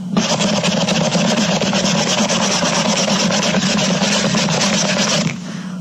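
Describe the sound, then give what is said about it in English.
Steady rubbing and rasping as a clean rag is worked over a bottle to make it look new, continuous and fairly loud for about five seconds before it stops abruptly. “now I've got my new bottle in one hand and a clean rag in my other hand. I'm going to rub it until it looks new again.”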